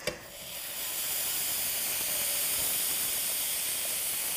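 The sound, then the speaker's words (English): Food frying in a pan to build a crust, a brief click followed by a steady, bright sizzling hiss that rises within the first second and then holds level. “So you're supposed to let it fry for like 3 to 4 minutes on each side, because you want it to get a nice crust so it kind of looks like that.”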